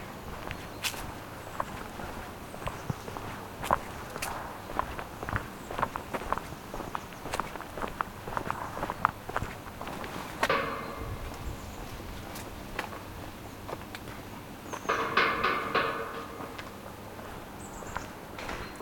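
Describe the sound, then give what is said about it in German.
Footsteps walking through a turnstile at the end of Favoritenpark: faint, steady steps throughout, broken by two louder clattering bursts midway and near the end. “So, jetzt sind wir am Ende des Parks angelangt. Jetzt geht es noch durch ein Drehkreuz und dann war es das erstmal mit dem Favoritenpark.”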